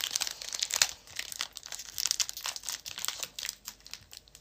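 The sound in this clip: Plastic crinkling as a holographic trading card is slid into a plastic card sleeve during a trading card opening: faint, irregular rustles and crackles, with no talking.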